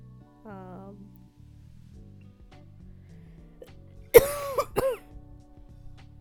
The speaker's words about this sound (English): I might leave the coughs in just for authenticity